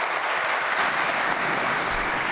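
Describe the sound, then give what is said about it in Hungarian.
Applause fills a parliament chamber: dense, steady clapping from many hands at an even loudness throughout, with no voices above it. “Köszönöm szépen ezt a kitüntető tapsot és figyelmet.”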